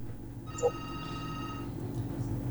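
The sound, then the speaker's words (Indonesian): A telephone rings once as a caller comes on air during a radio call-in show, a steady electronic ringing tone lasting about a second, faint against low background noise. “Kita angkat penelpon pertama kita.”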